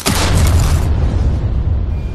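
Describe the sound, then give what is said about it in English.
A magical ruby explodes as a Fireball spell is cast, giving a loud booming blast. A dense roar fills the first second, then settles into a lower, rumbling tail that fades. “You cast Fireball. One of the rubies in your hand explodes.”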